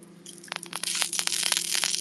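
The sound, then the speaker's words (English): Sausage sizzling on a grill, a dense run of sharp crackles and pops over a steady low hum, growing busier and louder after the first half second. “Can you guys hear the sausage grilling? I'll bring it closer.”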